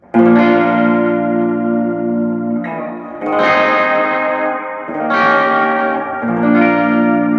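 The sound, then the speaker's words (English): An electric guitar plays through a Lovepedal reverb pedal modeled on a Fender reverb, with slight modulation. A few loud chords ring out with long, shimmering decays that overlap, and there is no talking. “Now I'm going to do the Lovepedal Reverb. Okay, now this has got reverb with a little slight bit of modulation in it.”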